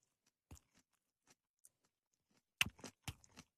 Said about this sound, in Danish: Hvis det ikke er en plastikblomst, så kan man spise knuppen. Så spiser du knuppen.